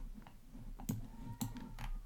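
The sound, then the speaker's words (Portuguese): A computer mouse clicks on a website's map button, a few sharp, faint clicks spaced apart over a low steady hum. “Aqui, ó, tem um botãozinho escrito ver o mapa. Você clica aqui, aí você vai onde você quer.”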